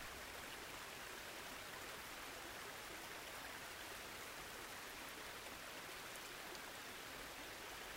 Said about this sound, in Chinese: 你被水声和船的低声轰鸣吸引，沿着甲板漫步。